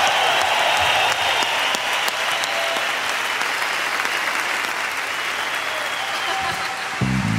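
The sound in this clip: Audience applause at a rock and roll gig: many hands clapping in a dense, steady roar that stays loud for several seconds, then cuts off abruptly near the end.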